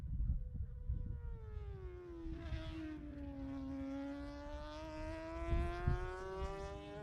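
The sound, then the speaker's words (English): A race car passes on a racing circuit, its engine a strong whining drone that dips in pitch and then climbs again. Broad rumbling noise runs underneath. “Let's have a little listen to them as he come through the far end of the circuit there now, through Tyres Curve, through the control tower.”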